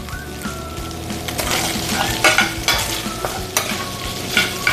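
Half-cooked chicken fries and sizzles in a pan over a fire, giving a continuous crackling hiss. Several sharp scraping stir strokes cut through it.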